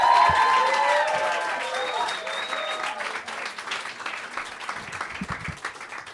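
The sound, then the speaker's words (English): Crowd applause as a performer is welcomed to the stage: dense, continuous clapping with whoops and voices over the first half, easing slightly in level toward the end. “as wide but slow a clap as you can without hitting the person next to you. Now, faster. Faster, faster, faster, faster.”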